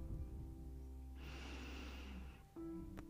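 A person inhaling deeply during a guided singing meditation, a single faint airy breath of about a second and a half over a low steady hum.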